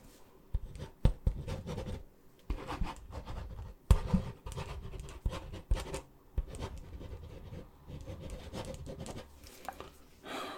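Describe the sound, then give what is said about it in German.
Handwriting with a pen on paper, a faint, steady run of dry scratching strokes broken by a few sharper taps and short pauses, with no voices. “Ich schreibe dir das auf, ja?”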